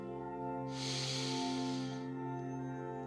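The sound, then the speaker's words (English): A single deep breath in, a long, airy inhale during a guided self-compassion breathing meditation, rising and then easing off over a steady, sustained musical drone. “Then take a deep breath in”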